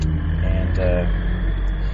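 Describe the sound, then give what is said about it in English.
Deep, steady engine rumble of a big truck driving past, loud and low-pitched with a faint whine layered on top, holding even without a clear swell or fade. “occasionally a big truck like that makes lots of noise”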